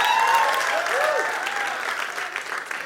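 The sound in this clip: Audience clapping during a sermon: dense, steady applause that stays loud throughout and tapers only slightly, with a voice faintly audible over it.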